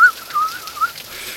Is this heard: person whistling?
yes

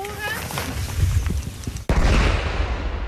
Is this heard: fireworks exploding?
yes

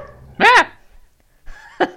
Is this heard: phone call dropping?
no

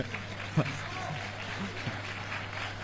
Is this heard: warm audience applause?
yes

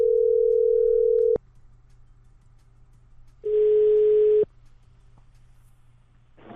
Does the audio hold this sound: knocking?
no

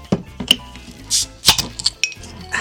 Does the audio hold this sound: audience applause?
no

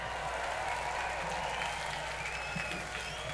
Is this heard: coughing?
no

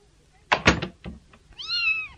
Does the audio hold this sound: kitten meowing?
yes

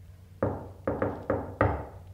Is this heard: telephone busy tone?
no

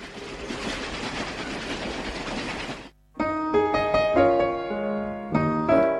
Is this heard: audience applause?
no

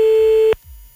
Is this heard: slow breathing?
no

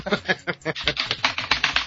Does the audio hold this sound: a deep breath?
no

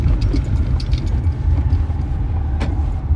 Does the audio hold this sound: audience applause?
no

